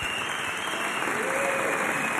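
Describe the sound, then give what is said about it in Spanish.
Audience applause at the end of a concert by a three-piece band: dense, steady clapping fills the whole clip at an even level, with no talk over it. “un aplauso unánime, porque el concierto de esta tarde ha sido increíble”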